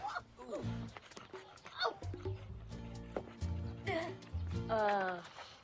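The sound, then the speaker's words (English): Yips and whimpering barks from a dog, Beethoven, as it trots up a path and jumps up at a woman, knocking her over; several bright, uneven cries rise and fall over a low sustained tone. “Billy lets Beethoven out of the truck. Lisa stands up. The dog trots up the path and jumps up at Lisa, knocking her over.”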